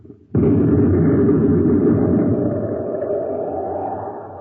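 Sci-fi weapon fire in space, as a sound effect: a sudden loud blast that swells instantly into a dense, sustained rumbling roar, then slowly fades over several seconds.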